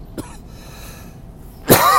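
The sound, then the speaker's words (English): One loud, harsh cough from a person whose lingering cough remains from an illness. It breaks abruptly out of a quiet stretch of faint background hiss near the end. “I am getting better, but my cough's not completely gone.”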